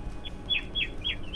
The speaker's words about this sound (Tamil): அழகா உங்க பக்கத்துல இருந்து குருவியெல்லாம் கத்துற சத்தம் வந்து கேக்குது, ரொம்ப அருமையா இருக்கு.